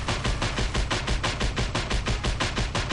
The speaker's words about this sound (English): We're about to shoot a helicopter right out of the sky here in Just Cause 2. And it's going down.